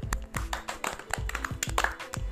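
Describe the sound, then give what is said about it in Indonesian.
Clapping from a small group of people giving a round of applause, a quick run of sharp, evenly spaced claps lasting a couple of seconds at moderate loudness. “Tuh berarti kita kasih applause buat pendengar setia bis.”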